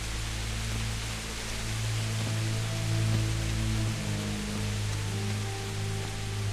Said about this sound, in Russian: Не, так дождь, смотри, дождь он только начался.